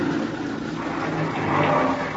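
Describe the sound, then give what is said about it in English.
An engine roars while a vehicle's wheels spin stuck in mud, making a dense, steady rumbling noise that swells slightly toward the end. No one speaks. “Mud. The wheels won't hold. You're just digging it in deeper.”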